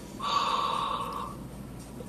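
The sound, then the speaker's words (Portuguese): Slow breath drawn in through the nose during a breathing exercise: a soft, airy hiss lasting roughly a second, steady in loudness, then fading into quiet background. “puxar o ar pelo nariz de forma muito lenta”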